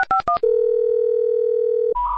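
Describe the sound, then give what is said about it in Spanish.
Loud telephone tones from a call that fails to connect: three short dialing beeps, then a long, steady, unbroken tone, cut off by a brief burst of noise. “No puede ser, en pleno siglo XXI siguen las llamadas sin entrar. ¡No entra la llamada!”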